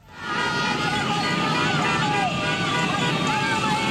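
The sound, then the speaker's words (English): Dozens of cars and motorbikes full of flag-waving street demonstrators in Caracas, Venezuela, create a steady loud roar of engines and crowd noise, with wavering horn-like tones and voices blended throughout. “That is the sound of dozens of cars and motorbikes full of demonstrators waving giant flags and banners in support of Ms. Machado.”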